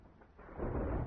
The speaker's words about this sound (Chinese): 大雨滂沱，雷声大作，望星山上